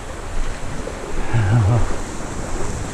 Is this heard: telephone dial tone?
no